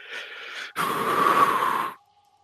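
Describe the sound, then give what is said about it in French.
A voice imitates a character's deep breath held back from a sob during a role-playing game story. A short breathy intake is followed by a longer, louder rush of air that lasts about a second and cuts off abruptly. “Tu vois qu'il prend une grande inspiration. Et tu sais ce genre d'inspiration que t'as quand tu réfrènes un, sanglot.”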